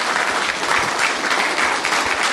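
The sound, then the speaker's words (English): Audience applause at a talk praising Queensland as a destination: a dense, even roar of many hands clapping, steady and loud throughout with no speech over it. “Well, no, you can applaud that.”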